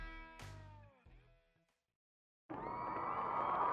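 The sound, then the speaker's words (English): A packed audience roars and cheers wildly at a show. The dense, loud crowd noise bursts in after sliding high tones and a moment of silence. “It's time. The audience is going nuts out there.”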